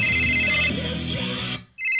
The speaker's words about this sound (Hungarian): Bejövő! Valaki még felmer hívni?